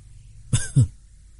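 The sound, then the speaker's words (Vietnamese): Two harsh, violent coughs come in quick succession from a weakened, wounded man. The second is slightly longer and heavier, and both stand alone over a quiet background with no speech. “Tô Vân dãy ra khỏi tường, ho dữ dội, yếu ớt cười nói.”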